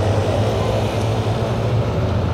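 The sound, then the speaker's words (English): Continuous roar of car traffic circling the big open Place de la République in Paris, a dense, even wash of engine noise. “It's a big open place, lots of cars going around, lots of lights everywhere. The City of Lights, they call it.”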